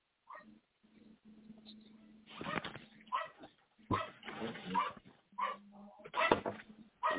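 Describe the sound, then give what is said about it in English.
A dog barks and whimpers in a series of short, uneven yelps and whines, fairly faint and scattered across the whole stretch. “somebody needs to let the dog in.”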